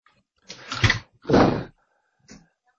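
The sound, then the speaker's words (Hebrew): A door is pushed shut in two broad, swishing movements, followed by a soft, short click. Silence surrounds each sound. “רק שנייה אחת, אני אסגור את הדלת.”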